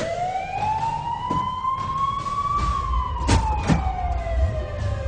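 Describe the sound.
An ambulance siren wails steadily. Its tone climbs slowly for a couple of seconds, then glides back down over a low rumble, with a few faint knocks near the end.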